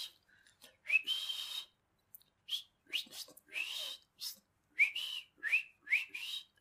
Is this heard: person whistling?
yes